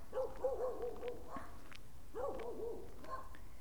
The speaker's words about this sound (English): there's some dogs here.